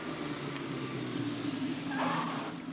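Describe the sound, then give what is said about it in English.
A red hatchback drives into a parking lot with a steady, low engine and tyre rumble that holds an even level throughout and swells slightly near the end. “A red hatchback drives into the parking lot. The couple from the doctor's office, Ben and Flo, sit in the car.”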